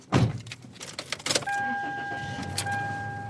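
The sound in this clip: An old tan Chevy car gives a few clicks and rattles, then settles into a steady engine hum with a thin, high tone running over it.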